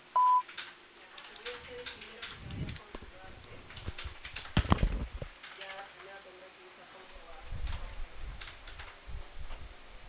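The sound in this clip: A voicemail recording tone opens with one short, pure, steady beep, followed by faint, muffled knocks and rustling.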